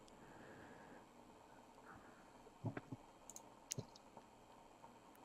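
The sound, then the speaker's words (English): A computer mouse clicking to open a news story online: a few faint, quick clicks bunched together, some in rapid pairs, over a low hum with no talk. “Let me click on the story and see if there's a... Let's actually read the story here. What a jackass. Let me pull this up again.”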